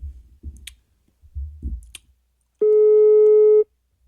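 A telephone busy tone sounds after a call is rejected: one steady, mid-pitched, buzzy tone lasting about a second. A few soft low clicks and thumps come before it.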